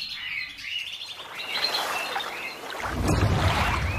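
Birds chirping in a fable about a flock living among plentiful fruit, a busy, high chorus of tweets and calls that keeps up throughout, with a low rushing noise swelling in near the end.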